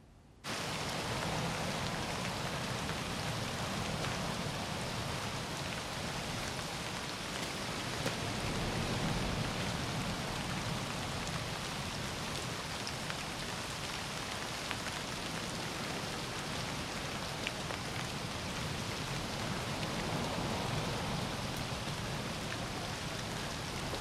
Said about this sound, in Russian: вышел к лесу в ливень.